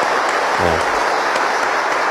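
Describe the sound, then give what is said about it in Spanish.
Applause for a woman's birthday: a dense, continuous wash of many hands clapping. It stays steady and fairly loud through the whole short stretch. “fuertes los aplausos para ella”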